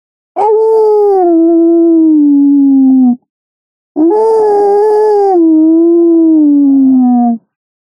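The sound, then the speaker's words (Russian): Wolves howl: two long, loud, clear howls, each about three seconds, separated by a short gap. Each is a sustained, tonal wail that sinks slightly in pitch as it ends. “Внезапно раздался где-то недалеко вой волка, а следом ему ответил еще один, а потом еще.”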